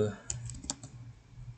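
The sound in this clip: Typing on a computer keyboard: a few quick, light keystroke clicks in a short burst, faint against a low background hum.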